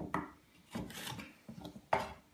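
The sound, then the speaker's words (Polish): A knife chopping a carrot into small cubes gives a few faint, sharp knocks against a hard surface, with a short scraping stretch between them, quiet and irregular in rhythm. “I kroimy ją w kosteczkę.”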